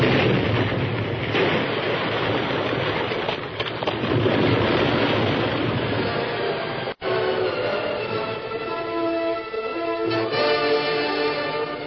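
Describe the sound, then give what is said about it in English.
A blast rumbles on as a sustained, dense roar, loud and unbroken except for a brief dropout partway through, with no voices. “A blast! Face down. Hug the ground.”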